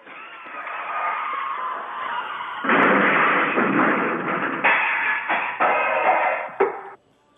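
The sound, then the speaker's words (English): Recording of a real car crash: a harsh, tinny, band-limited roar of skidding and impacts that jumps suddenly louder several times, with thuds near the end before it cuts off abruptly. “let me hear this car crash. You've got a record. You have a recording of this.”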